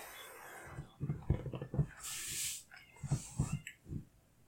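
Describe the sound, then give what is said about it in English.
A cat meows in a series of short, fairly quiet cries, with a breathy hiss burst in the middle. “I love how he keeps going, meow, meow, meow, but his mouth never opens.”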